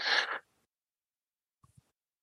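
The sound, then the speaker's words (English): A single deep breath drawn in during a guided meditation exercise: a soft, breathy rush lasting under half a second, followed by silence and a couple of faint small clicks. “Deep breath in.”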